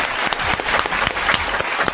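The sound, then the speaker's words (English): Brief applause greets a guest on a talk show. Quick clapping from a small group is dense enough to blur together, with individual claps popping out, and it holds an even level for about two seconds. “I want you to say hello and a little bit of applause to Sasha Starr.”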